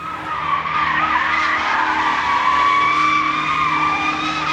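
Tire squeal from a car skidding during illegal street racing: a loud, continuous, high-pitched screech that holds steady for the whole stretch with no voices.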